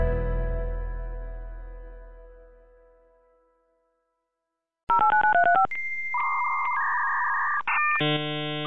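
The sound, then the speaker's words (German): A 1995 dial-up modem connecting to the internet: a fading tone, then a quick run of dialing beeps, followed by loud, steady handshake tones and harsh, shifting screeches. “Das ist das Geräusch eines Modems, mit dem man 1995 ins Internet gehen konnte.”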